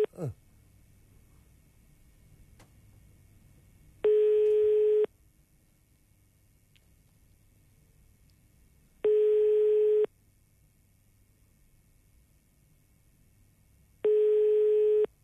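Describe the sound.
Telephone tone while calling a municipal office: three steady one-second beeps, evenly spaced about five seconds apart, over a low background hum.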